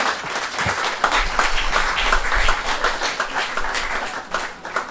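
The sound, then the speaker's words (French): An audience applauds at a public science café talk, with steady, dense clapping that continues at an even level throughout. “Donc, les applaudissements pour Monsieur Sarge.”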